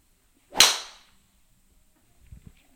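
A golf driver, a Remix 120 with 9.5 degrees of loft from the 2020 model, strikes the ball squarely: one sharp, bright crack that rings and fades quickly, followed by faint low rustling.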